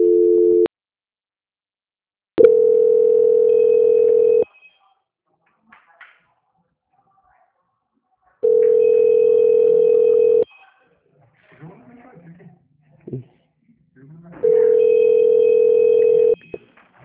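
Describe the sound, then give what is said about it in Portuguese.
Telephone tones play while a call is transferred to the audit department of Banco Santander. A brief tone opens, then three long steady tones of about two seconds each follow, separated by quieter gaps with faint clicks and rustles. “vou transferir o contato para a auditoria do Banco Santander”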